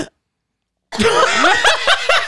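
A person choking on tea, breaking into a sudden loud burst of sputtering, gasping, cough-like sounds after a moment of silence, with choppy bursts continuing to the end.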